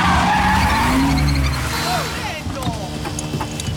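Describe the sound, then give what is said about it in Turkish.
Tires skid and squeal loudly as a truck arrives on a one-way street in Rome, with a heavy engine roar early on and wavering squeals that trail off into lighter rumbling. “Ve bir kamyon geliyor.”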